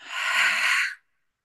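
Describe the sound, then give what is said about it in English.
A single long, airy breath during a guided breathing exercise, a steady hiss lasting about a second that stops abruptly and leaves silence. “Inhale all the way to the top, biggest breath of the day. And get completely empty.”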